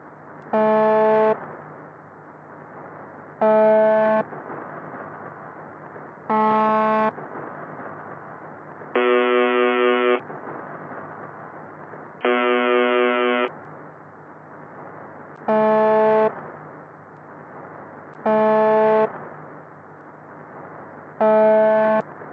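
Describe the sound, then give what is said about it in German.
Buzzing tone of a Russian secret shortwave station, received in single-sideband mode: harsh, horn-like buzzes repeat about every three seconds over steady static and hum, with two longer, lower tones in the middle of the run. “Klingt eigentlich wie eine Schiffshupe oder so ähnlich. Daher trägt er bei Funkamateuren und Experten den Spitznamen The Buzzer oder zu Deutsch der Summer. Dahinter steckt ein russischer Geheimsender”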